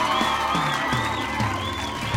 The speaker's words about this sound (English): How about a big hand for your host?